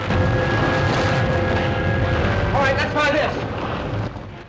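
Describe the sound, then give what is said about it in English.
Deep, continuous roaring rumble of an erupting volcano, with lava gushing through fractured rock and stone collapsing. The roar stays loud and dense throughout, then fades slightly at the very end. “The captain struggles in his stone cage as lava gushes through the fractured rock.”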